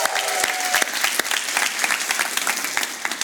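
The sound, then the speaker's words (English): An audience at a 1 p.m. church service applauds, with brisk, dense clapping that stays fairly even and lively across the short stretch. “can you make some noise for Jesus one more time?”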